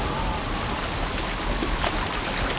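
Rain pours during a storm at sea around a boat rounding a buoy, a steady, dense hiss of falling drops that stays even throughout with no voices.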